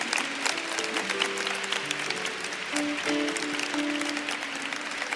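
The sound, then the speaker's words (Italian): Applause from a choir-festival audience as nine choir directors are brought forward to be honoured: sustained crowd clapping runs throughout at a fairly even level. “Facciamo anche un applauso, per piacere, grazie.”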